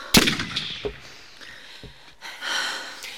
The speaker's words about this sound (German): Dann schieß doch. Dann schieß doch so, wie du schießen würdest, wenn du denkst, es ist so einfach.